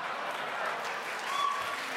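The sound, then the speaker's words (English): Audience applause fills a governor debate hall as a steady, fairly faint wash of clapping with no distinct individual claps. “So, please, no applause.”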